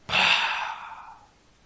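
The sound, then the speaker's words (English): A person performs a long, breathy exhale to imitate the final breath on a deathbed. The single sigh starts strong and airy, then gradually fades to nothing, heard alone. “and you're going to breathe out. And the old term that we used to use for people who had passed away was they have expired. They have breathed out.”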